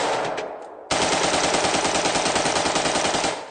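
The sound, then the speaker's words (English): A carbine fitted with a bump-fire stock fires rapid near-automatic rounds: a fading shot, then a loud, even stream of many closely spaced rounds lasting about two and a half seconds. “you can get pretty close to a fully automatic weapon for only a few $100. You simply slide it over the existing carbine buffer tube, put it in bump fire mode and allow it to free float, and let's see how it does with a bump.”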